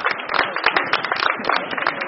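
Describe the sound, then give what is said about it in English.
Applause sends off a U.S. Navy military medical surge team at a hospital in Salt Lake City, Utah: dense, brisk clapping from a group, loud and sustained throughout. “Yesterday, in Salt Lake City, Utah, the last of those surge teams was sent off with applause.”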